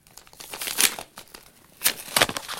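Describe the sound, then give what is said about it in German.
Paper crinkles and tears as a letter's envelope is opened, a small hard key inside it; quiet rustling swells into two denser bursts of crackling and ripping, with no talk. “Nie im Leben ist das ein Brief von Susan. Und da ist was drin. Was Hartes.”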